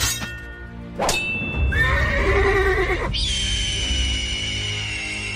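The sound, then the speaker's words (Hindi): A horse whinnies loudly at a horse-stunt show in a Leeds museum. A couple of sharp clicks come first, then the quavering, harmonic-rich neigh, which gives way to a sustained steady tone. “आप यहां घोड़ों के करतब के लिए आए हैं”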